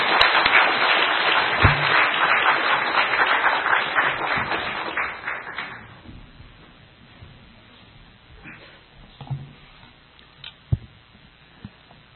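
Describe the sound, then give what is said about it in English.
Audience applause welcoming a guest speaker rolls as dense clapping for about six seconds, then dies away, leaving only a few scattered claps and taps in the quiet. “请大家跟我一起鼓掌，欢迎摩里博士。”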